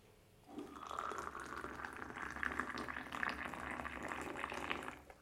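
Water boiling for tea gives a faint, steady bubbling hiss that begins after a short pause and carries on evenly.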